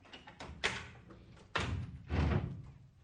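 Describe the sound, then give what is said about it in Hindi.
A door being opened, with a few abrupt wooden thuds and a heavier bang, sharp and fairly loud against a quiet background. “खोल दरवाजा। खोल दिए”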